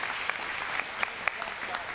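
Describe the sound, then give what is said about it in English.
Congregation applause for Jesus during a church service: a dense, steady wash of many hands clapping at moderate volume, with a few louder claps standing out. “Give Jesus a hand clap.”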